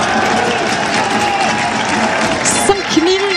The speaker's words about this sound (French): Ah, ça y est, écoutez le public. Qui se réveille, le public Castelroussin, hein, pour pousser son équipe.